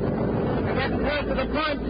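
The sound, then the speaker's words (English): A boat pulls away from a pier with a low, steady engine rumble mixed with wind noise, holding an even level throughout. “Their boat pulls away from the pier.”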